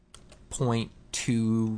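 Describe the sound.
Typing on a computer keyboard gives a few quick, faint key clicks at the start, followed by a voice that speaks over the rest.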